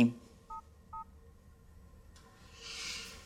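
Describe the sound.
Two short, faint telephone keypad beeps sound in quick succession as a number is dialed, followed by quiet background noise that swells slightly.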